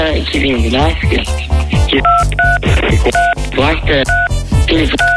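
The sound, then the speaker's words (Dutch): Telephone keypad tones from keys pressed during a call: several short, clear dual-tone beeps, many in quick pairs, sounding over loud, continuous voices. “Meneer, als u op de toetsen duwt terwijl dat we bellen, dan hoor ik u niet.”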